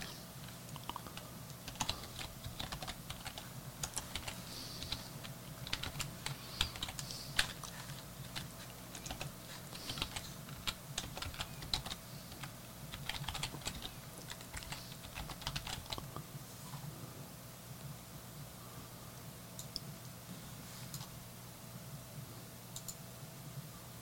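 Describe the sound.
Typing on a computer keyboard: a long run of many quick, irregular keystroke clicks, fairly soft and steady throughout, with no voices.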